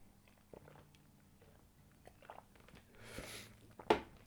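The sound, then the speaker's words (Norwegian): A quiet sip of a drink: faint mouth clicks, then a soft slurp and a short, sharper swallow near the end. “Må bare drikke litt.”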